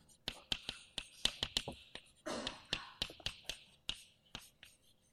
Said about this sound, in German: und dann schreibe ich hier auf diskrete Linien.